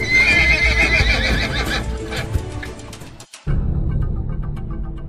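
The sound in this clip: Several horses approaching, a loud whinny ringing over a dense, low rumble of hooves, with a brief dropout near the end before the rumbling hoofbeats continue.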